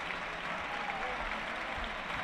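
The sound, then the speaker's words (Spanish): Steady, dense applause from a football stadium crowd as a Getafe player is substituted off, a continuous moderately quiet patter without breaks. “Las sustituciones. Se va a marchar la tasa, aplaudido por el público.”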